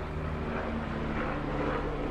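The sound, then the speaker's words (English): A helicopter flies overhead outdoors, heard as a faint, steady low drone with a constant humming undertone and no talking. “that's a helicopter. Those aren't, passenger planes don't make those noises.”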